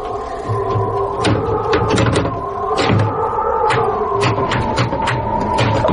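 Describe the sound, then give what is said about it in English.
A jammed hatch is forced open, heard as many sharp knocks and clanks at irregular intervals. The impacts sit over a steady, loud low rumble. “Okay, see if you can get the hatch open, though.”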